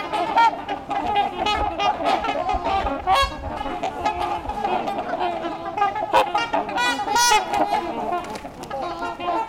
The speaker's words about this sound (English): I'm in a flock of trumpeter swans.